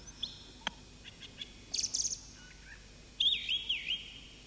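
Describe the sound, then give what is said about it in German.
A thrush sings faintly over a telephone line: a few short chirps, then bright high whistled phrases in irregular bursts, including a warbling phrase near the end, over a low steady hiss. “Ah, hörst du die Drossel? Schwach. Weil du sie ganz normal übers Telefon hörst.”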